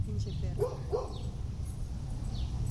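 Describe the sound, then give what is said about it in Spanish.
A dog barks faintly with a couple of short, yipping barks close together, heard under low, ongoing talk. “¿Se tiene que callar el perro? De preferencia. Cállate, perro.”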